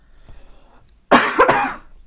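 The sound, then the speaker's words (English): A person coughs after a second of near silence: one harsh, loud, raspy burst lasting under a second, with no talking. “I have to cough.”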